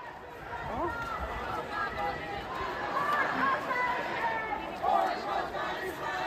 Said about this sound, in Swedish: det ni hörde där var alltså ljud från en pro-palestinsk demonstration i Malmö i höstas